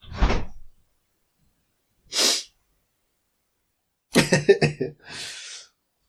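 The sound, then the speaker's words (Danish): A few short, breathy sniffs from someone with an allergy-runny nose, each a brief hiss set apart by silence, alongside a lower cough-like burst at the start and a brief voiced noise. “Han bliver med den her snifte lyd.”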